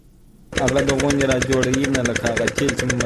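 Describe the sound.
A diesel generator pumping water from deep wells to irrigate wheat fields in Kandahar's Dand district kicks in abruptly and runs with a loud, steady, rapid mechanical chugging.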